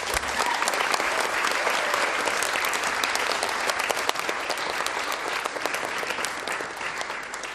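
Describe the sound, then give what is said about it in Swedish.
Sustained applause from an audience at a children's event in a church parish, dense and steady throughout at an even, fairly loud level with no pauses. “Så tack till församlingen här, vi ger dem en jätteapplåd.”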